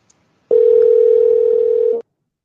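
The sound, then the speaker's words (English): Continuous telephone tone used as endless ringing: one steady, unbroken pitch holds for about a second and a half, starting and stopping abruptly, heard alone without talk. “All right, endless ringing.”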